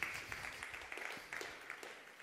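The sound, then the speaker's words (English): A church audience gives muted applause at a Thanksgiving service marking its return to the Lord's table after seven months. The clapping is faint and scattered, with no voices over it. “that was a muted applause.”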